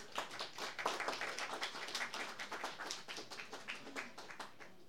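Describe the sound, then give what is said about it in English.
Audience applause welcoming a pair of song-performing musicians onto the stage: a faint, continuous patter of many hands clapping, with no voices over it. “Please give them a big welcome.”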